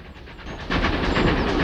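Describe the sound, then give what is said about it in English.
A steam train puffs round a corner with rhythmic chuffing bursts and a hissing wash of steam, swelling louder about halfway through. “He smiles and stands with his back to the train as it puffs round the corner.”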